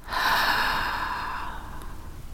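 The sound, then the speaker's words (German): A single long, deep breath during a guided meditation breathing exercise, loud and airy at first and slowly fading away, with no talk. “Nimm einen tiefen Atemzug durch die Nase und atme durch den Mund aus.”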